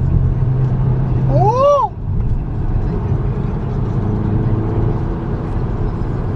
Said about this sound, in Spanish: Entra la potencia de los 290 caballos de fuerza que tiene este motor.